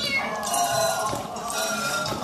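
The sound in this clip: A small female cat meows, giving a drawn-out, tonal cry that rises above a steady background noise.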